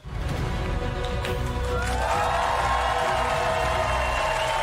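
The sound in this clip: A studio audience cheers and whoops in a sustained, dense roar that keeps a steady loudness for several seconds without a break.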